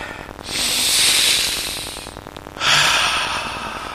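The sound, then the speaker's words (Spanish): Two long, loud, deep breaths from a person preparing to jump, each a rushing hiss lasting over a second, separated by a brief pause, with no talk. “¿Se siente de ahí el aliento? Inspira tres veces, a la tercera inspiración contiene el aire”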